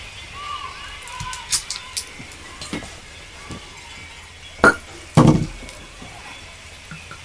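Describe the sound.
Wine glasses clink as wine is served, two bright, sharp chinks close together midway through, standing out from a steady low background hiss.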